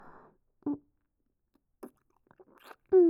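Someone chewing food makes a few faint, brief, crunchy smacking sounds separated by quiet pauses, with a short voiced hum near the end.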